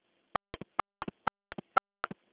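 Faint, sharp telephone keypad presses are heard as a caller enters a four-digit password into a conference-call service. Many short presses come in a quick, uneven series of singles and close pairs, with silence around them.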